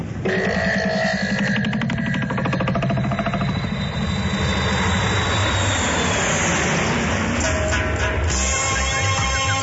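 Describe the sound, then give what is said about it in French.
Airplane engine roaring as the aircraft takes off on a test flight: a loud, continuous rumbling drone with a rough, pulsing texture that holds steady throughout. “messieurs, bienvenue à bord du vol d'essai 001. Enfin, si on atterrit sans trop de flammes, notre destination est Kinshasa au Congo.”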